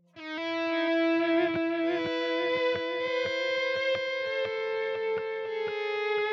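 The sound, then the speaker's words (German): Electric guitar through a distorted amp with an echo effect: a thick, buzzing sustained chord under quickly repeated picked notes whose attacks echo in a steady rhythm. “Halt in Kombination mit dem verzerrten Amp vor allem. Guck mal, ob das da drin ist bei Legacy. Warte mal, ich mache mal den verzerrten.”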